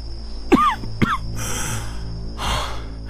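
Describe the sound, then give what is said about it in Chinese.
Two short, harsh coughs from a gravely ill Song army general in his command tent at night, followed by a rasping, gasping breath and softer breathing. “宋军主将面容憔悴，好像有重病在身，时不时还能听见几声咳嗽。”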